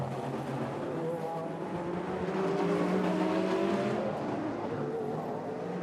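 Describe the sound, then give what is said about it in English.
GTD-class Porsche GT race cars and an NSX pass during a sports car race on the Long Beach street circuit, making a steady, moderately loud engine roar whose tones waver slightly in pitch as they go by. “Nick Tandy carving his way past the GTD Porsches as the leader goes past the Gradient NSX.”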